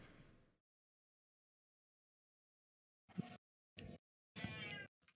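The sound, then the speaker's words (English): Cat meows from a video game, heard as a few short cries separated by silence. The last cry is longer, and all of them are faint. “Meow. That's a cat.”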